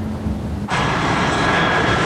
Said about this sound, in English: A plane lands on a runway in an open field.